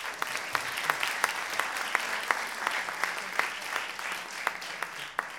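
An audience gives a warm welcome to a panel at a session on children's documentaries, with steady applause and a few sharp, distinct claps regularly standing out above the dense clapping.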